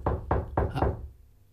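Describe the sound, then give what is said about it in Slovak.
Knocking on a door: four quick, dull, evenly spaced knocks with a low thud, followed by a short fading tail. “Niekto zvoní. Chceš povedať klope?”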